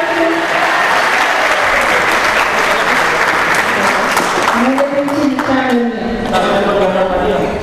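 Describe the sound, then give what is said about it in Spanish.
Audience applause at a book presentation in Santiago, a loud, continuous clapping that holds for several seconds, with people talking over it in the later part. “Fernando Valencia, un aplauso para él.”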